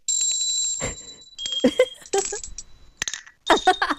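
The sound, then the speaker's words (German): Small, high-quality handcrafted bells ring in several bright, high strikes, each leaving a clear sustained tone that lingers between the separate rings. “Kleine Glöckchen, aber nicht so ein Ramsch, sondern wirklich was Hochwertiges. Also gut kunstwerklich gearbeitet. Und wie klingen die?”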